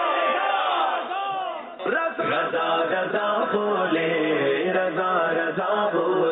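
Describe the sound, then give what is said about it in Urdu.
A crowd at a Mawlid religious gathering shouts a chanted religious slogan in unison. Many voices rise together in loud, sustained calls that swell and fall in repeated waves. “نعرہ لگائیے”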